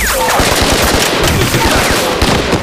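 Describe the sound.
Loud gunfire from a firefight, with rapid automatic bursts and overlapping shots forming a dense, continuous crackle across the whole clip.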